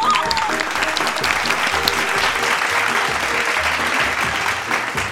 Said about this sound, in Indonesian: Tepuk tangan.